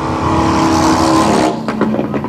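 A racing motorcycle with a 1928 Chief engine in a racing frame, no clutch or brakes, runs on a track. It gives a loud, steady engine drone that then drops and turns rougher and more broken at the end.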